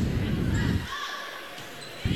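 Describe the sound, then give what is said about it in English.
A volleyball serve in a match: a sharp strike on the ball amid gym crowd murmur, with a commentator talking over it. “Oh, nice serve. I would have bet that was going to hit the net. Ace.”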